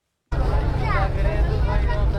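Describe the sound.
A car driving through the streets of Kabul, a continuous low engine and road rumble that starts abruptly, with a voice talking over it.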